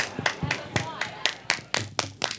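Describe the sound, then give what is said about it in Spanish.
Classmates clapping for a fellow student after a vocal exercise: sharp, bright claps land in a steady, even rhythm, many in quick succession, like a group beating out rhythmic applause together. “¡Aplausos! ¡Aplausos al compañero!”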